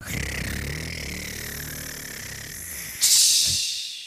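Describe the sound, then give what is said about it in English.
A voice imitates a drum roll with a steady, buzzing, rolling hiss for about three seconds, then switches to a bright hissing burst imitating a cymbal crash that fades away. “Give me the drum roll for our next randomly pulled topic, please.”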